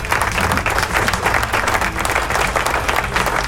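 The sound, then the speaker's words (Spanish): Applause, dense and continuous clapping that keeps an even loudness throughout, with no single voice standing out. “Aplausos.”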